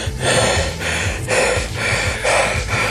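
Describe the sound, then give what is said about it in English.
Heavy panting from someone out of breath after running, with rough, loud breaths repeating in a steady rhythm of inhales and exhales and no words. “I'm out of breath.”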